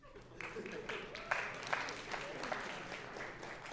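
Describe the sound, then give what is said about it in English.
A small spattering of applause from an audience: light, scattered hand claps that hold steady for a few seconds, with a couple of sharper individual claps standing out. “A small spattering of applause, all right?”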